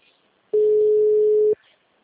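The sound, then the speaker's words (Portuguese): Telephone ringback tone on a call while waiting for the other end to answer: one steady mid-pitched tone lasting about a second, with near silence before and after. “Tá chamando.”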